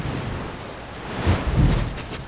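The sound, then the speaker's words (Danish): Tide waves strike hard against new piles, a broad rushing wash of water that swells into a couple of heavier surges toward the end. “Nu kommer tidevandet og slår ind mod det nye pæle. Hårdt og ubarmhjertigt.”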